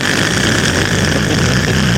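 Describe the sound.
A voice imitating loud, hard plastic toy wheels rolling on pavement, a harsh, steady rumbling hiss held evenly for about two seconds.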